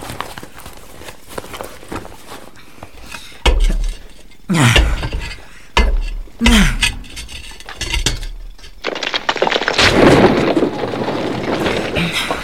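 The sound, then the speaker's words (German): Pickaxe breaking loose stones out of a wall: a few heavy, irregular strikes with gritty scraping and rattling, then a longer, dense, rumbling clatter of stone. “die Steine in dieser Wand, die sind doch irgendwie ziemlich locker. Mhm. Oh ja, die sind los. Ja. Ich nehme mal die Hacke.”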